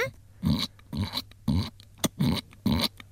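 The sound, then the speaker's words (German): A human voice imitates a piglet oinking, giving a series of short, nasal, squealing grunts spaced roughly half a second apart, each a brief loud burst with silence between, over a faint low hum. “Kannst du einen Ferkel nachmachen?”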